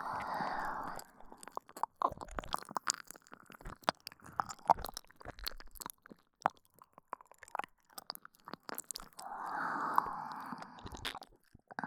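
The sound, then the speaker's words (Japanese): Someone bites into and chews an ear-shaped wild mushroom with a crunchy texture. Many small, crisp crunches and clicks sound at an irregular pace, quiet and close, with soft hissy swells near the start and end. “耳の形に似てるけど、一回かじって確認しますね。”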